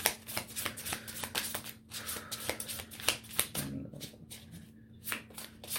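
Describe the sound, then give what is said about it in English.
Soulmate oracle cards being shuffled by hand in a long run of quick, soft riffling flicks and slides, broken by a few brief pauses, with no voices. “Okay, so let's get some soulmate cards on this read for you, Libra.”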